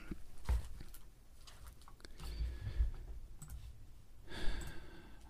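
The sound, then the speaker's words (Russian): Typing a search query on a computer keyboard: scattered, light key clicks in short bursts over a quiet background, with soft breathing between them. “Так, секунду, я пишу в поиск.”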